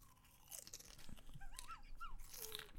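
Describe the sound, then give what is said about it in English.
Barbecue potato chips crunching while being eaten, a rapid, irregular run of many crisp, dry crackles and bites that continues throughout at moderate loudness. “Like, to hear that crisp, I don't even want to eat chips.”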